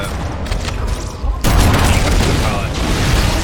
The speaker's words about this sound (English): okay, that's an explosion.